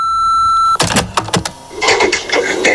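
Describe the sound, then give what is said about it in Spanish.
A steady, high-pitched answering machine beep holds for under a second, then gives way to a run of clattering, knocking sounds. “Si quieres dejar un mensaje, puedes hacerlo después de oír la señal.”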